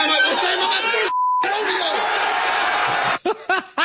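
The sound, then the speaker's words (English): A short, steady mid-pitched censor beep blanks out a single word in a man's speech for about a third of a second. Talking carries on around it, with light laughter and voices near the end. “Had to beep that out.”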